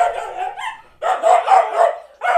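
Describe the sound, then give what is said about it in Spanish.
Dogs barking in a string of sharp, repeated barks, mostly in short clusters with brief gaps between them and no talk over them. “Qué nobles los perros. Me están volviendo loco.”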